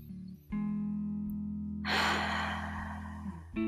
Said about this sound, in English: So let's take two beautiful deep breaths in.